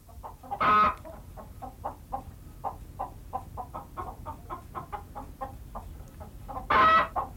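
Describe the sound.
A hen clucks after laying an egg, a steady run of many short, rhythmic clucks with a loud, harsh squawk at the start and another near the end.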